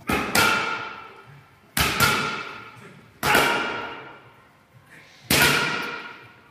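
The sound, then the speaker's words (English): A boxer hits pads in a boxing ring, landing heavy, sharp thumps in a few separate bursts, some as quick doubles. Each impact is loud and leaves a long ringing decay before the next, with a fainter hit among them. “hitting pads in the ring”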